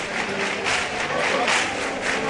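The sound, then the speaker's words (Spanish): A bullring crowd claps and cheers for a bullfighter from Huelva, with steady clapping rising and falling in waves and mixed with crowd noise. “Esas palmas por Huelva otra vez más, ¿no?, son significativas, ¿no?”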